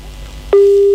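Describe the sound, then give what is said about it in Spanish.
A telephone busy tone sounds after a call is cut off. One steady mid-pitched tone starts abruptly halfway through and holds unchanged, loud and alone, until the end. “se le cortó la llamada a mi viejo.”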